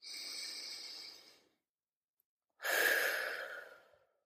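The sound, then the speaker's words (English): A slow, deep breath, heard as two long, airy rushes of about a second and a half each, separated by a short silence, with no talk over it. “Take a breath with me.”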